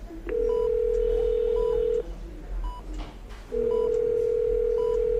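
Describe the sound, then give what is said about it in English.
Outgoing telephone call ringing out after being dialed: a long, steady ringing tone, a short pause, then the tone returns, with faint background noise and no talk. “And so we're just going to give Mikey a call and get our official goodbye and find out how Ripper's doing.”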